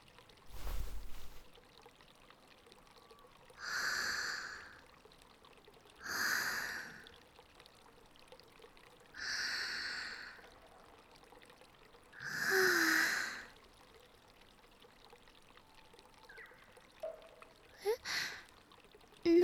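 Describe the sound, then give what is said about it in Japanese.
Deep breathing in front of a garden: four long, soft, airy breaths spaced a few seconds apart, each swelling and fading slowly, with a brief thump at the start and small clicks near the end. “深呼吸です。いつだってこのお庭の前でこうすると”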